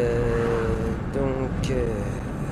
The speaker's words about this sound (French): il y a un gros camion devant moi que je vais doubler